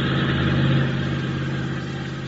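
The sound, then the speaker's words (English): A car motor runs at a steady idle: a continuous low rumble that swells slightly early on, then holds even, with no voices. “start your motor”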